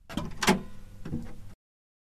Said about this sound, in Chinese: 奶奶奶奶，快开门，快！